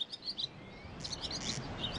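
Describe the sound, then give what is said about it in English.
A swallow twitters in a run of quick, high chirps and warbling notes, fairly faint against a soft background hiss and rumble. “And yesterday, a special programme welcoming the swallow.”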